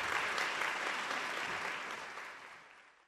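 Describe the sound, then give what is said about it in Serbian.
Audience applause after a concert of piano and voice, a dense wash of clapping that starts full and gradually fades away toward the end. “cenjena publika, aplauz.”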